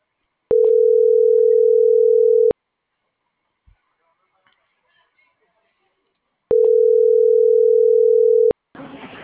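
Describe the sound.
A telephone rings out while a call is placed: two steady, mid-pitched tones of about two seconds each, separated by a long silence with faint rustles. A short burst of noise follows the second tone.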